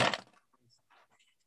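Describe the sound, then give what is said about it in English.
Two twelve-sided dice rolled at a tabletop game: a quick, sharp clatter that trails into a few faint, scattered clicks as they settle. “Often gets to roll a d12 for the first time, too. Yeah. Sweet. Has to actually get the dice out.”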